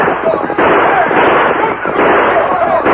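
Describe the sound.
Gunfire in a Western shootout scene, rapid shots blurring into a dense, loud, continuous barrage while men shout over it.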